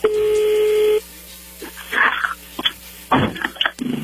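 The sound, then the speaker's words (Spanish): A telephone number is dialed. A steady dial tone holds for about a second, then a few short touch-tone beeps follow at uneven intervals. “A ver qué pasa, ahí se está marcando, no haga ruido, por favor.”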